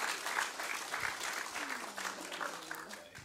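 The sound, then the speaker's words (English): A church audience applauding to welcome a worship leader to speak: a fairly soft, continuous patter of many hands clapping, rising and dipping a little but never stopping. “So can you put your hands together and just welcome Hannah today?”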